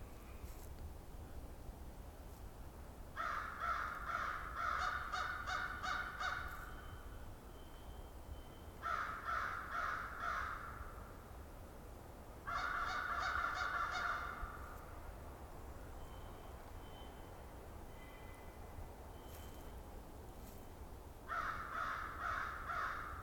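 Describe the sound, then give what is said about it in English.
American crows cawing at a conservation area in Southern Ontario in January. Harsh, repeated caws come in four bursts of several calls each, separated by quieter gaps. “I'm at Valens Conservation Area in Southern Ontario, and the first bird I'm recording this year is some American crows.”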